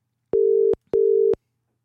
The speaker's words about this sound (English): Oh, he's ringing me.